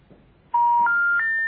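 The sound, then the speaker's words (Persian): Telephone dialing tones for a call: three steady electronic tones in quick succession, each pitched higher than the last, held and clean with no voices. “حالا اینا بهانه نگیر، تماس بگیریم. خب ببینیم این بار جواب میدن یا خیر.”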